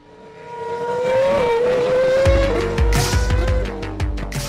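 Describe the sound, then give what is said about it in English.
Formula One race cars on a racing circuit: a steady, high engine whine that climbs slightly in pitch, then a deep, loud rumble joins midway and carries on to the end. “Fast forward to the Formula One racing circuit of today.”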